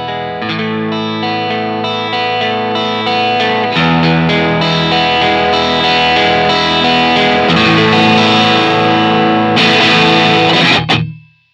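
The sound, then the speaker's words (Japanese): Sustained tones through a distortion pedal that is slowly pushed down, moving from a clean sound to heavy distortion. The sound grows denser and slightly louder, holds steady, then cuts off abruptly at the end. “今ディストーションをかけた音で、行いました。ちょっと分かりやすいんで、だんだんだんだんクリーンからだんだん歪みの成分が大きくなって、音量も上がっていく”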